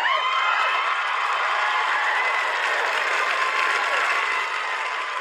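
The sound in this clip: A live studio audience applauding, heard as dense, continuous clapping from many hands at a steady level, easing slightly toward the end.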